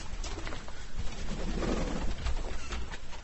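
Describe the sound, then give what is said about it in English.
Birds in an aviary about 15 by 9 feet holding around 40 birds of five or six breeds: soft, dove-like cooing and calls over a steady, rustling, noisy background. “It's an aviary. It's 15 foot long by about 9 foot wide. And we've got about sort of 20, 30 birds here? We've got about 40 birds at the moment, of about 5 or 6 different breeds.”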